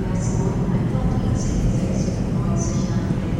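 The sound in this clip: Train station ambience with a train: a low, steady rumble and hum with people talking throughout, and a few brief high tones rising above the noise.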